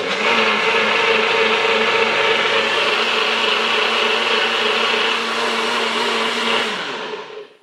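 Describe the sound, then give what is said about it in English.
A NutriBullet blender runs late at night, blending ingredients into a smooth paste, with a loud, steady, high whirring roar for about seven seconds before it winds down and stops. “Whoever designed this NutriBullet did a damn good job.”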